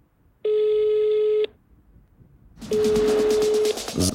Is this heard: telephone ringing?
yes